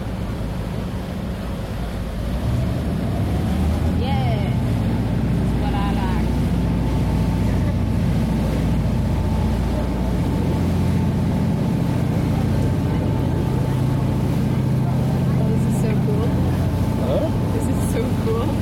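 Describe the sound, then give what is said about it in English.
Steady low rumble and rushing water wash of a 110-meter passenger car ferry under way, continuous and loud with wind buffeting and faint voices in the background. “Chichiman is a 110-meter passenger car ferry. It runs 4 trips a day back and forth from Manitoulin Island.”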